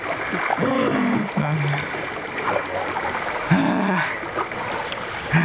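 A boat is paddled slowly through water, giving a continuous wash of rushing, splashing water with small irregular splashes as the paddles dip and pull.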